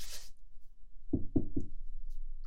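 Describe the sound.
Knocking on a door from outside on a cold, snowy day: three firm, hollow knocks in quick, even succession, fairly loud against near silence.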